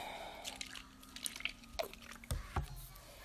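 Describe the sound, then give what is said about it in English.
Faint, wet squishing and squelching of slime goop as contact solution is poured in and worked, with several soft, sticky, irregular pops and drips standing out from near quiet. “More contact solution.”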